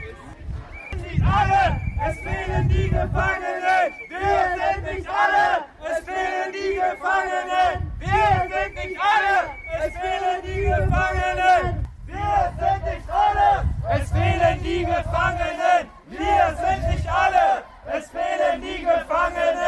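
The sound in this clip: Protesters chant loudly at a demonstration outside a prison in Chemnitz. Many voices shout together in rhythmic, repeated bursts that continue steadily throughout.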